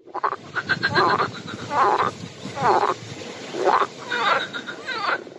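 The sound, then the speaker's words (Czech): Frogs croak in a pond in the evening, a long series of raspy, ribbed calls following one another in quick bursts, fairly loud and steady throughout with no voices. “To je žabí kvákání.”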